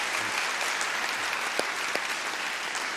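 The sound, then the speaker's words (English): A church audience applauds on Easter Sunday at a CityHope campus service. The clapping is brief, steady and even, with a few sharper individual claps standing out from the wash. “So Malbus here and actually every campus, why don't you put your hands together and welcome the rest of your church family. Welcome to Easter Sunday.”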